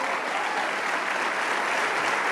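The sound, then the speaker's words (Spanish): An audience claps together during a church service, a full, even wash of applause that holds at a steady level without pause or voices standing out. “¡Wow! Le damos un aplauso.”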